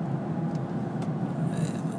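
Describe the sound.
A car driving, heard as a steady low rumble with a broad hiss above it, even and unbroken, with no talk.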